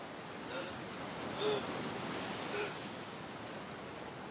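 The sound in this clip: Ocean waves washing onto a rocky beach: a soft, steady rushing hiss with a few gentle swells rising and falling.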